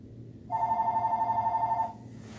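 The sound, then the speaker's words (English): A telephone rings once with a rapid, trilling electronic warble lasting over a second, clearly above a faint low background hum. “that was a phone ring.”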